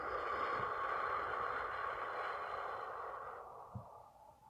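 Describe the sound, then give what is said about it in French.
A slow, soft exhale through the mouth during a relaxation breathing exercise, a long airy hiss that gradually fades before tailing off into near quiet, all faint. “Et une cinquième fois, nous inspirons doucement par le nez. Et nous expirons par la bouche.”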